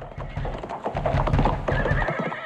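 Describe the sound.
Horse hooves clop in a dense, continuous rhythm while the horse whinnies loudly over them throughout.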